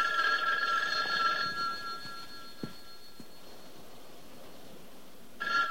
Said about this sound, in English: Maybe you better answer the phone. Yeah, I'll get it in the other room.